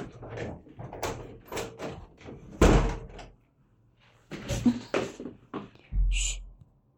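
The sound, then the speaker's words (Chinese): A door slams shut with a single loud, heavy thud, set among scattered lighter bumps and shuffling before and after it. “门关上。”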